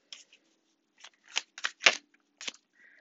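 Tarot cards being shuffled and drawn: a few crisp, papery snaps and flicks in an irregular rhythm, some louder than others, with brief quiet gaps between and no talking.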